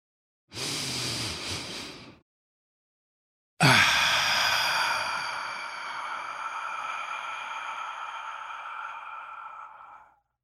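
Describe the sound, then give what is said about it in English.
A deep human breath: a steady airy inhale of about a second and a half, a short silence, then a long, soft exhale that hisses on and slowly fades over several seconds. No speech. “let's take a deep breath”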